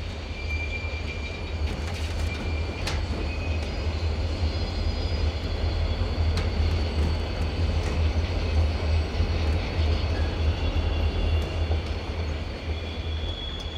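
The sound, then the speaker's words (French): Train wagon wheels roll on the rails in a continuous, loud, low rumble that stays steady throughout. Faint high-pitched metallic whines drift above it, and there are no voices. “Le bruit macabre des roues des wagons au contact avec les rails nous abétit, comme un somnifère, et nous laisse sans réaction.”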